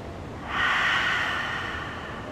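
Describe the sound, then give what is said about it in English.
A long, steady exhale during a breathing exercise: one soft, airy rush of breath that swells quickly, then fades gradually over nearly two seconds, with no talk. “Breathe in. Out. Try to exhale as long as you can.”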